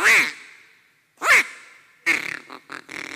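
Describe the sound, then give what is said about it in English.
A person imitates a duck quacking with the voice, the way duck hunters call from blinds: two loud, nasal quacks spaced apart, then a quicker, choppier run of shorter quacks. “Okay, that's what ducks sound like. Have you ever heard a duck? I'm not that good, but that's what they sound like, okay?”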